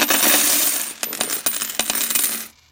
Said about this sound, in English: he poured a bag of golden coins on the table